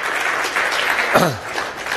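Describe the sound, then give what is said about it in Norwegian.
Audience applause in a church: dense, steady clapping from a crowd runs through the whole stretch with an even loudness, swelling slightly near the middle before easing. “ska vi få middelen en kraftig applaus opp der”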